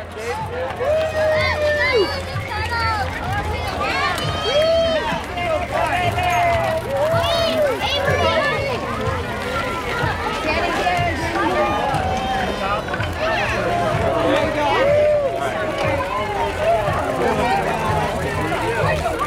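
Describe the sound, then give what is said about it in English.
Crowd hubbub at a 4th of July bike parade in Redstone: a steady babble of many voices that carries on without a break from start to finish, fairly loud throughout. “Sounds from the 4th of July bike parade in Redstone.”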